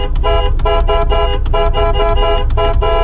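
A car horn honks many times in quick succession, its bright, buzzy tone pulsing in an uneven rhythm over a steady low rumble.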